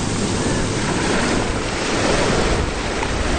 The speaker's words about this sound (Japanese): 今日は結構波があります